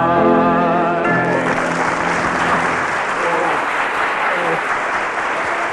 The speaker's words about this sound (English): Oh, dear. The cheers from the audience.